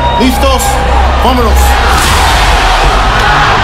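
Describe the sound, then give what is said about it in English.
Arena crowd at a boxing match chanting for Canelo and El Perro, rival sections' voices rising in chant over a loud, dense roar of cheering that fills the whole stretch. “The crowd says it all. The dueling chants of Canelo and El Perro, the two sides trying to drown each other out.”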